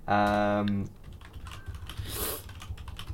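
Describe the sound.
Typing on a computer keyboard, heard as a run of quick, light key clicks that continue steadily over a low background.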